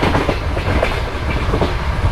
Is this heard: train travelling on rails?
yes